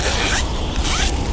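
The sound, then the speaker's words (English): A zipper is pulled up on a child's new warm winter coat, with two quick, bright rasping strokes and a short pause between them. “That's the sound of a child zipping up their new warm winter coat that you donated.”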